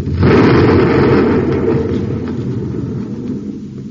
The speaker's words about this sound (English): Fired a torpedo.